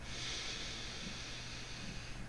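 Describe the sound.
A slow, deep inhale during a breathing exercise, a faint, soft airy hiss drawn steadily for about two seconds with no talk over it.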